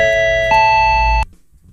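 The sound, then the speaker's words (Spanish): Airport announcement chime for passengers of a flight, a loud electronic two-note tone whose second note steps higher, held briefly and then cut off sharply. “Ay, es que me habéis puesto un tono. Din, don, din. Aviso a todos los pasajeros del vuelo 7675 con destino Córdoba”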